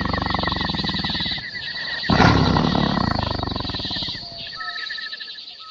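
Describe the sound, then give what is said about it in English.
A tiger mother moans softly to her cubs, a continuous raspy, breathy call that swells midway and then fades. “It's a funny sound, right? But don't worry, there's nothing wrong with Salmi. A tiger mother uses sounds like that to tell her cubs what to do.”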